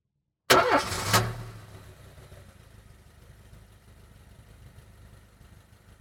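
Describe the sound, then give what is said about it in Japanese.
A car engine starts with a loud, brief cranking burst that catches, then settles into a quiet, steady low idling rumble that continues to the end. “何ですか？ 車？ はい、そうです。車ですね。”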